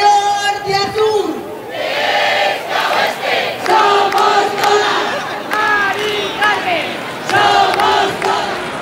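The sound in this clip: Crowds chanting in the streets of Spanish cities, protesting against high prices for renting and buying homes. Loud massed voices rise and fall in steady waves from start to end.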